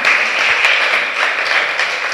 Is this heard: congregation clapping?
yes